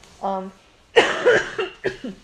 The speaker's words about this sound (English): ew, I'm coughing like an old lady, sorry.